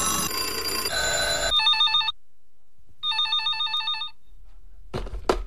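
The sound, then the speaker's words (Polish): A newsroom telephone rings in two bursts of bright, trilling electronic rings with a silent gap between them. “Zadzwoń do nas. Nasz redakcyjny telefon czeka.”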